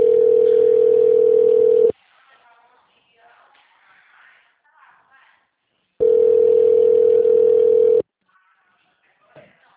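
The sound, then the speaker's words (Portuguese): A telephone call's connecting tone plays as two long, steady, mid-pitched beeps, each lasting about two seconds. A long pause filled with faint line noise separates them. “Para sua segurança, informamos que esta ligação poderá ser gravada. Conectando.”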